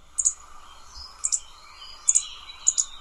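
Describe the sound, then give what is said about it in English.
Young birds cheep in four faint, evenly spaced bursts of high chirps, most of them doubled, over a soft background murmur. “the two young birds were chatting in their cheep-cheep language”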